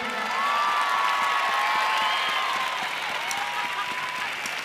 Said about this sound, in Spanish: Y quería un fuerte aplauso para ellos.